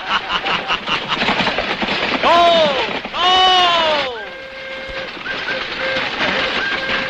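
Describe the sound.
A train starting to move: a low rumbling churn runs throughout, broken midway by two loud, falling whistle-like tones, then settles into steadier sustained tones over continued rumble.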